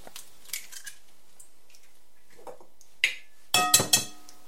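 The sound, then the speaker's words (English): Eggs being cracked while preparing a recipe: a few faint taps, then several sharp, crisp cracking snaps close together near the end. “So first, what we're going to do, going to crack your eggs.”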